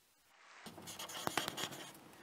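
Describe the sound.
Faint marker-like strokes squeak and scrape as someone writes on a board, a few quick, scratchy strokes close together near the middle, with quiet surroundings.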